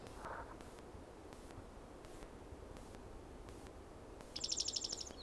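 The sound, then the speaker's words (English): A bird sings softly over faint steady hiss: a brief lower note near the start, then a quick, high, rapid trill toward the end. “bird singing softly”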